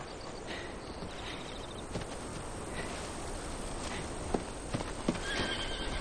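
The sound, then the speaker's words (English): A black horse grazing on a hill lets out a faint whinny, with a few soft hoof knocks toward the end over a steady hiss of quiet background noise. “On a hill, Aaron's black horse grazes.”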